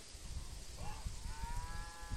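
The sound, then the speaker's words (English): A milk cow moos on rolling rural farmland in eastern Wyoming, a brief call followed by a longer drawn-out moo, both faint over a low rumbling background. “the odd milk cow mooing for supper”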